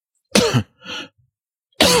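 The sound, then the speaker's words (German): A person coughing in a few sharp, loud bursts separated by short pauses, with a quieter rasping sound between the first two. “was tust du? Ich huste.”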